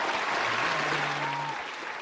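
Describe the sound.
Studio audience applause fills the whole span with dense, steady clapping at an even loudness that eases slightly near the end.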